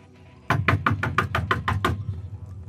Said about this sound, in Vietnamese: Tiếng gõ cửa khô khốc vang lên trong màn đêm tĩnh mịch vang khắp ba gian nhà.